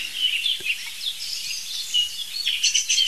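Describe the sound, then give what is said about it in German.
A song thrush sings bright, varied, high whistled phrases in an unbroken stream, while a blackbird sings lower behind it; birdsong alone with no voices. “Boah, jetzt ist Singdossel. Und Amsel. Das ist alles Singdossel, dahinter ist die Amsel. Das ist tiefer als die Singdossel.”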